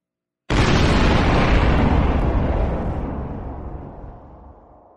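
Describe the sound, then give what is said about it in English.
A bomb explosion sound effect bursts in suddenly with a loud, full-bodied blast, then rolls into a long rumbling roar that slowly fades over several seconds. “I got to give the bomb. I just got to give it.”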